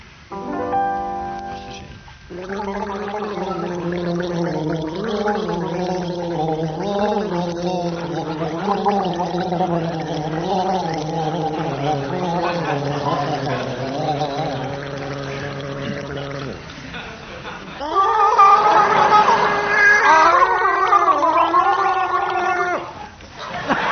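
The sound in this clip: People gargle in a studio, producing a voiced, bubbling warble that lasts about fourteen seconds. After a short pause comes a second, higher-pitched gargle.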